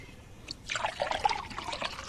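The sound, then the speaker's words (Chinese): Water is poured, a soft, faint trickle that swells into a bubbling splash after a short quiet lead-in. The sound continues steadily to the end. “倒水。”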